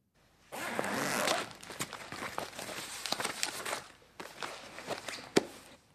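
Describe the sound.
Rustling and scraping as a large green folder is pulled out of a backpack, starting with a dense burst of friction noise, then settling into irregular crinkles and soft knocks.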